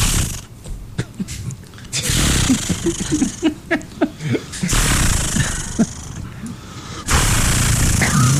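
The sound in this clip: A voice imitates a chainsaw starting and then cutting, with rough, sputtering vocal bursts that give way to sustained, gravelly buzzing roars.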